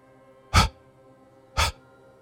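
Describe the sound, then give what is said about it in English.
Two short, sharp exhaled breath spurts during a guided breathing exercise, separated by about a second of quiet, each a brief forceful puff of air with no talk. “Breathe in a long breath. Three short spurts out.”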